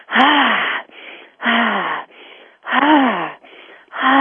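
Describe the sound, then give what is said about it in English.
Deep, fast breathing done to raise energy: a steady rhythm of loud, rasping, partly voiced breaths alternating with softer, airy ones, about four cycles in quick succession. “At that point, I might want to start speeding my breath up a little. I might want to start doing a deeper, faster breath.”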